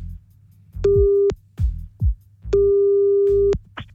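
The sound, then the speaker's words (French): A telephone busy tone after a call is hung up: two loud, steady, mid-pitched tones separated by a pause holding a few low thumps, all over a faint low hum. “Allô? Allez hop, il est à nouveau raccroché, on rappelle.”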